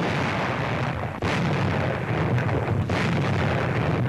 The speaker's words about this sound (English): Meanwhile, enemy bases were subjected to constant shelling by heavy artillery.